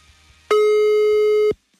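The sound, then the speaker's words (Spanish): A single telephone call tone sounds on a line that goes unanswered: one steady, clear electronic beep lasting about a second, alone against quiet. “Oye, en Tecpan no nos contestaron, banda.”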